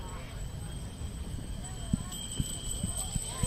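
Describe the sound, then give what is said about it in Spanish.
A few sharp clip-clops of mule hooves sound in an uneven, unhurried sequence as the mules are led down for a brotherhood's cart procession in Cádiz, over steady background noise. “Pues iban bajando los mulos, que más tarde se engancharán a esta carreta del Sin Pecado”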